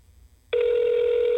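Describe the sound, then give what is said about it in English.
A telephone ring tone for a call that goes unanswered: a single steady electronic tone begins about a third of the way in after near silence and holds unbroken at one pitch to the end. “Just ring forever. Yeah, it's just gonna ring forever and ever and ever.”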